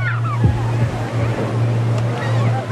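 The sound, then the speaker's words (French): Ocean waves surge toward a tourist-filled shore in a tsunami-like swell, a continuous heavy rush of surf with a steady low hum underneath. “Les vagues arrivent”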